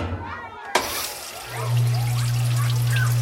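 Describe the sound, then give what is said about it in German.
A washing machine starts up after detergent powder goes into the drawer: a sharp click, then a steady low motor hum joined by a continuous rush of filling water. “So, eine Portion Waschpulver ins Fach und los, Wilma Waschmaschine.”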